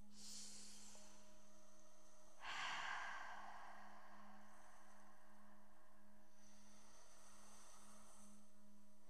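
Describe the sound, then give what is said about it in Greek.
A single deep breath drawn in, a soft breathy rush lasting under a second, heard alone over a steady low electrical hum. “Βαθιά εισπνοή.”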